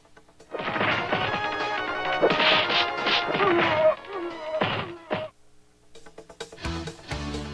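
Street Fighter punches and kicks in a combo of a jumping fierce punch, low and high jabs and a flash kick: loud electronic smacks and thwacks mixed with tonal game sounds, a dense run of hits, a brief pause, then more strikes.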